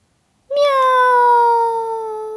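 A spotted cat stuck up in a tree gives one long, loud meow. The call holds a steady pitch and then tapers slightly toward the end.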